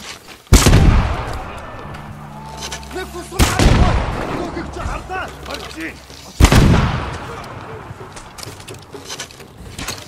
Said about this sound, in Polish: stąd trzeba strzelać. Czy ja mam jakieś wybuchowe strzały jeszcze? Mam.